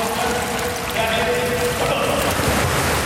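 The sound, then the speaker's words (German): Ambience of an indoor swimming hall: a steady, broad wash of splashing water and diffuse noise that holds an even level throughout. “Und so hört sich's an in der Schwimmhalle Schwerin-Lankow.”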